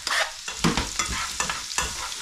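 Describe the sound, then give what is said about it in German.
Chopped onions sizzle in hot fat in a pan while a spatula stirs them, giving a steady crackling hiss broken by repeated scraping strokes. “nehmen wir unseren Pfannenwender mit und geben jetzt die Zwiebeln ins Fett.”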